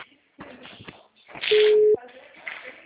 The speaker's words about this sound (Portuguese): caiu a ligação